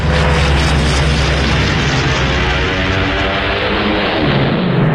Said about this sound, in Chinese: 斯图卡式俯冲轰炸机装备有警报器，训练有素的飞行员在下降过程中必须忍受住高压